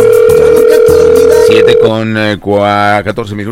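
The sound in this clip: The ringing tone of an outgoing phone call plays as one steady, mid-pitched beep lasting under two seconds. A voice then talks over the line.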